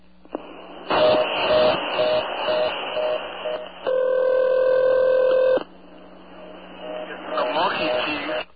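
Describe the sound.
A single steady, buzzy ring tone on a rural telephone line sounds for under two seconds midway, framed by crackly line noise and faint teenage voices chattering in the background before and after it.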